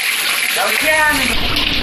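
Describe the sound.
Water sprays and splashes from a rockery fountain in a home courtyard pond planted with water lilies, a steady rushing gush that thickens after the first moment and then runs on evenly.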